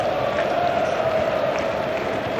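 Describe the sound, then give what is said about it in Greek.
German football fans in a stadium chant together, a loud, continuous crowd roar carrying a sustained sung tone that holds steady throughout. “Ακούτε και τον ήχο από το κήπεδο. Οι Γερμανοί θεατές προσπαθούν με κάποιο σύνθημα να αναβαθμίσουν την ψυχολογική διάθεση των παικτών”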